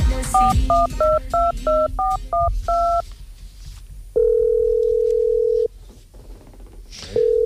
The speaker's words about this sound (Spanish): Estamos llamando.